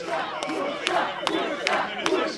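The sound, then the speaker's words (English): A stadium cheer squad chants a player's name in rhythmic unison after a football match, the crowd's voices rising in regular accented pulses over a continuous roar. “The cheer squad chants out his name.”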